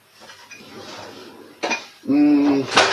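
Pots and pans clatter and clink as a cooking pot is fetched in a kitchen, with soft rummaging knocks that build into a sharper metallic clank and a loud ringing rattle at the end.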